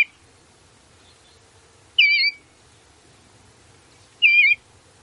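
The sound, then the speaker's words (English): Bluebird calls: two short, bright warbled notes, well spaced and fairly high-pitched, plus a clipped note at the very start, over a faint low background hum. “It is wonderful to welcome bluebirds with their cheery call, plus they carry the blue of the sky upon their backs.”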